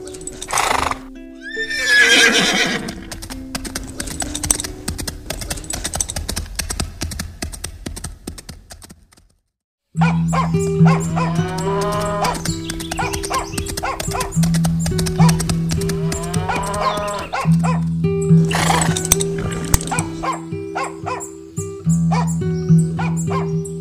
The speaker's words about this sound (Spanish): También llega galopando el tío Sigifredo.